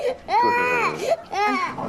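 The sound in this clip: A baby cries in two drawn-out, wavering wails, high and strained. The first wail is longer, and a brief catch separates it from the second.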